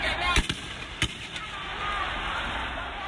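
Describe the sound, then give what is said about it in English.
Police fire tear gas canisters at protesters outside Hong Kong's Legislative Council: a few sharp, loud bangs in the first second and a half over a constant, noisy rushing background. “Dramatic scenes outside Hong Kong's Legislative Council today as police fired tear gas canisters against protesters.”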